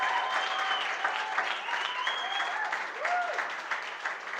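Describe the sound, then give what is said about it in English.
Applause from a church audience welcoming a preacher to the front during a service: steady, dense clapping that stays even in loudness throughout, with no voices over it. “Can we please put our hands together”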